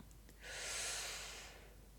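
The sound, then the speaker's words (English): A single slow, deep breath during a guided relaxation exercise: a soft, airy rush of air that swells gradually and then fades away, with no talking. “I'm going to do one more big breath in,”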